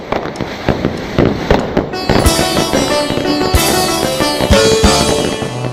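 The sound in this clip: Loud audience applause at a live song performance: a dense burst of many claps that carries on as music and singing begin beneath it.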